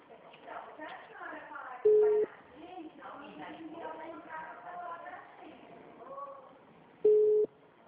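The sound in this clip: Two short identical electronic ringback beeps sound while a phone call is being placed to add someone to a conference call, heard clearly over voices that talk continuously throughout.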